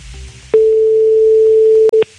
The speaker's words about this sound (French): C'est parti, on lance l'appel, s'il vous plaît, là-bas, du côté de Bernard Sabat.